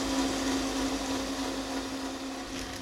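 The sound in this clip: Electric mixer whisking egg whites for meringue, its motor giving a steady, loud whirring drone with a constant hum underneath and no pauses or talk.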